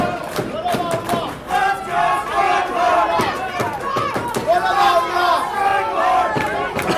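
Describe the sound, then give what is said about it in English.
A wrestling crowd chants for the wrestler Strangler, many voices shouting a repeated rhythmic chant in loud, pulsing bursts over about seven seconds, with cheering and crowd noise between the beats. “Why would he say it? Strangler chant.”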